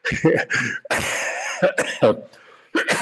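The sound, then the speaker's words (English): Several harsh coughs come in quick succession, loud and alone, with a longer raspy burst early on and a final short cough after a brief pause. “I'm only coughing, not choking on the idea”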